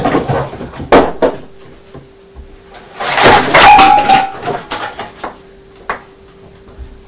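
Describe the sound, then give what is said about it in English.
Cardboard boxes are pulled out of a cupboard and dropped onto the floor, making a few soft thuds and bumps, then a longer burst of scraping and rustling in the middle. “making a mess with all his boxes in his cupboard.”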